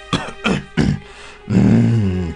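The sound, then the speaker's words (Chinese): An old man clears his throat with three short, gruff coughing bursts, then a longer, low, voiced rumble. “老地保清清嗓子说。”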